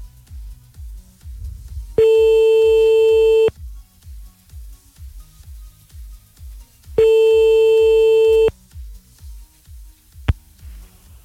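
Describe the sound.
A telephone line tone plays while calling a listener back. Two long, steady beeps of about one and a half seconds each are separated by a pause, over a rhythmic background beat, with a short click near the end.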